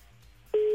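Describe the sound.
Telephone line tone heard while placing a call. After a short low murmur, a single steady mid-pitched tone switches on abruptly and holds until the end.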